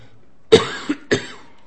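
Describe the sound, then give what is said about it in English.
A sharp cough and a short throat-clearing rasp, then a second cough, from someone with a tickle in the throat. The sounds are brief and separate, with quiet between them and no speech. “excuse me, I've just got a tickle in my throat today.”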